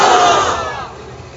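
A crowd at a religious gathering shouts Subhanallah together in answer to a preacher: one loud, massed cry that starts at full strength and slowly fades over about a second and a half.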